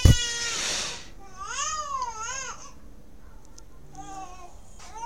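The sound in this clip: Crying opens with a loud, sharp wail, then turns into wavering, babbling whimpers and quieter fussing that fades toward the end.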